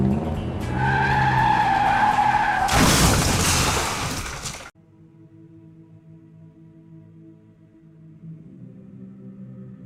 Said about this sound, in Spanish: Las finas ruedas de caucho chillaron agudas contra los adoquines mojados, incapaces de detener el vehículo.